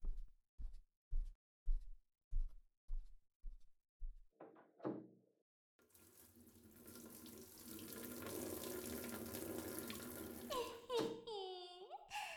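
Bath water running at a faint level, a steady rushing hiss that begins after a run of evenly spaced knocks and a few brief clatters, with squeaky tonal sounds near the end.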